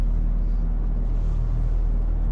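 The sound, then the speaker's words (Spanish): Low, steady engine rumble from a black Mercedes driving on asphalt at night with its headlights on. The drone stays constant and fairly loud throughout, with no clear rise or fall. “Los faros delanteros alumbran el asfalto. Un vehículo aparece a lo lejos.”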